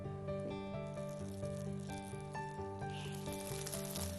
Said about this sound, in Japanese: そして両片面がこんがり焼けるまで3分ほどじっくり蒸し焼きにします。